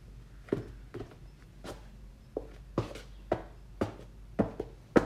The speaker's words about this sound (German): Und diesen Teppich hier, der vor der Balkontür ist, schüttle ich jetzt auch kurz aus. Weil der langsam auch nötig hat, dass er ausgeschüttet wird.